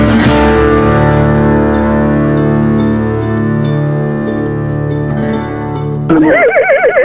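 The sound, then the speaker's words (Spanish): A horse neighs in one long, loud, sustained call that ends in a wavering, trembling whinny, with no talking. “Soy un caballo, escucho Tercer Mundo”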